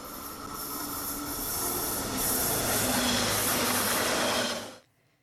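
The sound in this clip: A train pulls away from the track with a sustained loud rolling rumble, hissing and squealing wheels that build slightly, then cut off abruptly just before the end.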